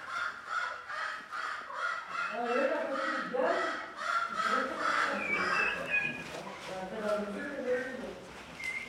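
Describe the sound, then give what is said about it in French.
Turkeys gobbling on a farm: a series of rapid, warbling calls repeats over several seconds at moderate volume. “Il est dindons là-bas. Hein. Hein? En plus, il y a des dindons de l'autre côté. Je vais les enregistrer.”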